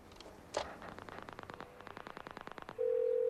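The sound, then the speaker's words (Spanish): A telephone's redial key clicks once, then a rapid run of many short, even dialing tones plays before a steady, loud low-pitched line tone takes over. “En el teléfono marca la tecla de rellamada.”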